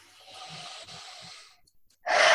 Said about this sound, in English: Big breath.